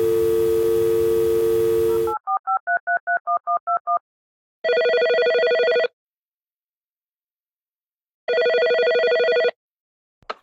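Telephone ringing before an answering machine picks up: a quick run of warbling, alternating-pitch pulses, then two long, steady electronic rings separated by silence.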